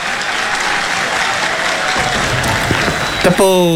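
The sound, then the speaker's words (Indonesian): Long applause from a crowd, dense and steady clapping that holds at an even level throughout, with a brief voice cutting in at the very end. “Panjang tepuk tangan.”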